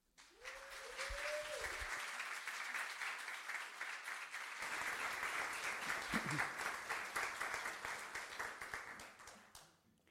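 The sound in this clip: An audience applauds to welcome a rabbi to the front, a full, even wash of clapping that holds steady for roughly ten seconds, with a brief tonal vocal sound near the start.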